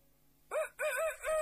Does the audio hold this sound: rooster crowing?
yes